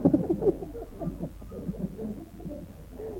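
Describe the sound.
A human voice imitates the call of a big-voiced dove: low, breathy, hooting coos in a loose repeated pattern, strongest at the start and then softer.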